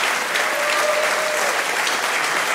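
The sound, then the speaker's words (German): Applause from an audience welcoming the comedian Anka Zink on stage, a steady, even wash of clapping throughout. “Bitte begrüßt mit einem fulminanten Applaus die wunderbare Anka Zink.”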